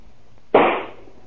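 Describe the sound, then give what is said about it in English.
A single rifle shot fired in a yard: one sharp, loud crack that decays quickly, heard alone. “Why are you shooting that rifle? What are you shooting at?”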